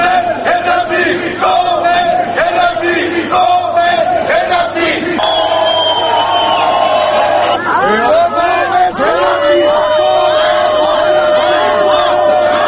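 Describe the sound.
Protesters chant outside parliament, a dense crowd shouting slogans of shame and telling arriving deputies to go away. Many voices overlap in a loud, continuous roar.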